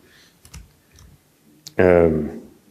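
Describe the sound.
A few sparse, light keystrokes on a computer keyboard while a keyboard macro is written, spaced clicks followed by a louder, brief voiced sound.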